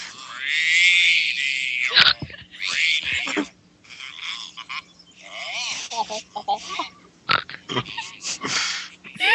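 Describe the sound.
Snorting played from a video, many loud, nasal, pig-like snorts and honks in irregular bursts separated by short gaps.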